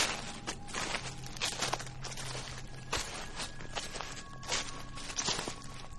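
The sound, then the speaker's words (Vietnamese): Slow footsteps crunching and rustling on dry leaves, an unhurried series of soft crackly steps spaced unevenly over a faint steady hum. “Dường như người kia bước đi rất chậm, mỗi một bước đi chân dẫm lên lá khô cứ sột soạt, rất chậm rãi”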